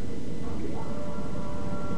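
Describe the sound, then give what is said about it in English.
An Electrostar electric train runs through a tunnel with a dense, steady rumbling roar, and a faint, thin whine rises above it partway through. “Now we're in a tunnel. This train does make quite a weird noise. Yeah. They're electro stars.”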